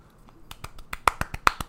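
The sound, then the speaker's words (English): Polite applause for a pianist taking his seat at a concert: a thin scatter of light, sharp claps at a fairly even pace, starting faint and growing a little louder, with no voices. “Yes, polite applause.”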